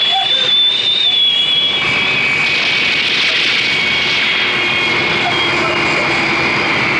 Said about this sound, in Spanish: El avión se eleva como una saeta gigante y alcanza en pocos segundos una altura prodigiosa.